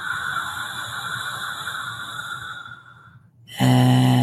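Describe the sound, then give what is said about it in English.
A long, deep breath during a guided breathing exercise rushes out as a steady airy hiss for about three seconds and fades, followed by a loud, sustained tonal sound. “In and out. And again, breathe in”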